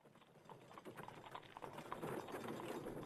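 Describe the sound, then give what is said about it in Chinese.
Hooves of a horse-drawn carriage clip-clopping, many quick, uneven hoof strikes, faint and growing slightly louder toward the end. “大德通门外一辆马车停下，喜凤、福依依下车”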